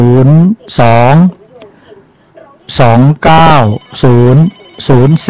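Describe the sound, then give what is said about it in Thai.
A telephone rings as a listener's call comes in to a live call-in line. Loud, repeated ringing bursts sound in an even rhythm, with a short gap after the first. “มีผู้ฟังโทรมาแล้วครับโทรจากไหนครับ”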